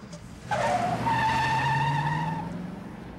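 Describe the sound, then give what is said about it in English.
A red open-topped sports car speeds past on a roadside, its loud engine whine and tire squeal bursting in abruptly, then holding steady for about two seconds before easing off. “As the dude stands at the side of the road, a red open-topped sports car speeds past him.”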